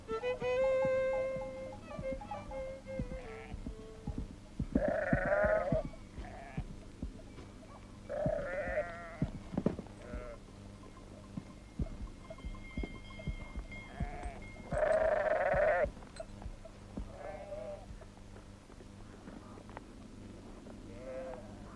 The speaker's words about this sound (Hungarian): Nézd, milyen szépen hízik a nyájunk